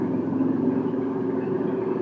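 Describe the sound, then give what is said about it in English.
A motorcycle, not a Harley, rumbles with a low, steady engine drone that holds fairly loud for the whole stretch, with no voices over it. “I'm in Harley country. it's not even a Harley. Good great. Sorry for the motorcycle distraction.”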